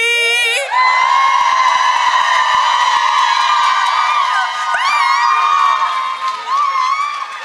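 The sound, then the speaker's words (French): A crowd loudly cheering, screaming and whooping to welcome a performer onto the stage at a Christmas-themed show. High-pitched shrieks ride over a continuous wall of cheering that lasts throughout. “Faites-moi vraiment un accueil de rockstar, là, OK?”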